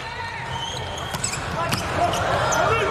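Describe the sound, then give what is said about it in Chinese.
A volleyball serve by Manojlović during a tight second set, heard as a couple of sharp ball impacts over steady crowd noise and voices. “是的，曼诺维奇的发球，”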